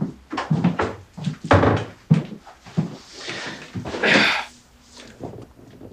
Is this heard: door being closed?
yes

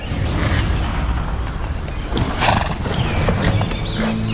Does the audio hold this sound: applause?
no

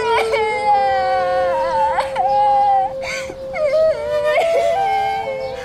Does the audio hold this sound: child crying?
yes

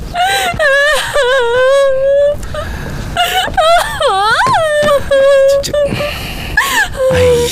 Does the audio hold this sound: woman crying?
yes

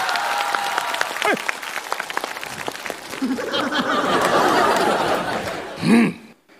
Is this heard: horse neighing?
no

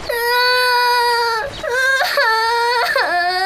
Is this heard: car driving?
no

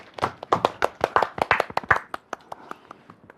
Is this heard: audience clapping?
yes

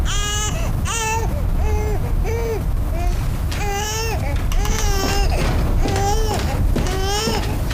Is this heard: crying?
yes

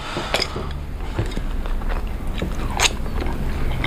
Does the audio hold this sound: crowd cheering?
no

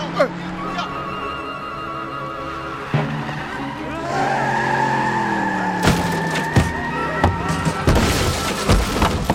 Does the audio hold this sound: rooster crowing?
no

